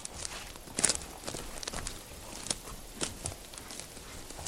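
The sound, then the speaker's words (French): Footsteps of a hunter walking on and on through a forest: many soft, even steps at a steady pace, faint and alone, with no talk. “Des minutes, des heures durant, le chasseur marche.”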